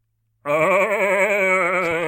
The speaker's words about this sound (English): you hear, "Ah!" as this goat screams.